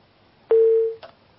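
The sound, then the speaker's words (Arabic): A single steady telephone line tone of about half a second sounds after a call drops, followed by a short faint click, with quiet around it. “طيب انقطع اتصالك يا أخي، وحاول أن تتصل مرة أخرى”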